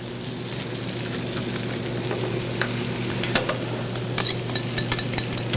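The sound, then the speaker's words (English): Steady sizzle of tomato cooking in wine in a pan alongside browned pieces for an Italian dish. Light clicks and scrapes of stirring grow more frequent toward the end, with no talk. “I've had my wine in there. Now I'm going to add in some tomato. And let that cook in with it.”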